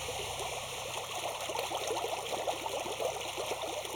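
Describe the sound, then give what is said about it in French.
Steady churning and trickling of water as paddle wheels stir a spirulina culture pond running in winter mode, a continuous, even wash of small splashes and gurgles with no voices. “Donc en fait, les roues à aubes sont là uniquement pour agiter le milieu et pour avoir de la spiruline sur toute la hauteur d'eau.”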